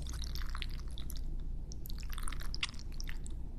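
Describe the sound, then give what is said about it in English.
Macaroni and cheese being stirred gives a quiet, continuous run of many small wet clicks and sticky squishes. “This is a 7-minute video of someone stirring macaroni and cheese.”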